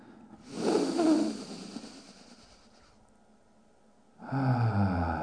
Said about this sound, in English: So let's breathe that way three times very deeply into the body.